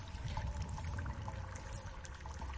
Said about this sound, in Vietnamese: Ông Vương nghe thấy tiếng nước chảy đâu đó ở trong hang, đúng hơn tiếng nước đang chảy phát ra đằng trước.